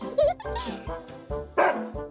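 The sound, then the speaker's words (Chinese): A big dog barks loudly behind a fence in several harsh, harmonic bursts at an irregular pace. The strongest barks come near the start and again in the second half. “那只很爱乱叫的大狗正隔着栏杆对他们大叫着”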